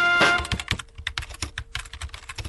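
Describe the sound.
Someone types on a computer keyboard: quick, uneven keystrokes clatter in short bursts with brief pauses. The clicks are crisp and moderately soft, with no voices.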